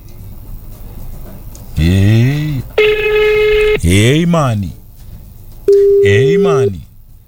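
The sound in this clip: An outgoing telephone call rings out unanswered, with loud, steady electronic ring tones alternating with warbling, gliding tonal bursts in separate segments.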